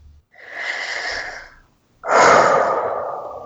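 Breathing during a tapping exercise: two long, airy breaths separated by a brief silence, the second louder and noisier than the first.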